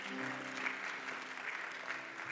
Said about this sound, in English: Big round of applause for the music today.